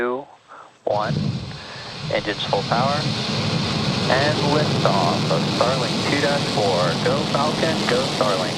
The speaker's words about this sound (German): Ten, nine, eight, es ist der 19. Jänner 2023. Die Falcon 9-Rakete startet.